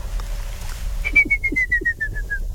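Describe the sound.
A ruddy kingfisher call on an island: a quick run of clear, whistled notes that drops steadily in pitch from start to finish, heard alone.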